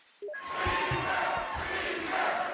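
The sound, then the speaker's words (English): Crowd cheering at an election-night Republican rally in the Capitol: a sustained roar of many voices rises quickly and holds steady, broad and dense, without a break. “Energized Republicans in the Capitol cheered as results rolled in.”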